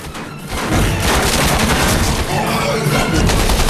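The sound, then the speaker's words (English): Machine-gun fire in a video game rattles in a loud, dense, continuous burst of rapid shots after a brief quieter start, holding at full intensity throughout. “Eventually, it's caught in the rapid fire of Chupa's machine gun.”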